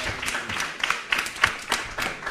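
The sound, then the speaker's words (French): An audience applauds at a literary awards ceremony with a fairly faint patter of scattered hand claps in an uneven rhythm. “On a le droit de l'applaudir aussi,”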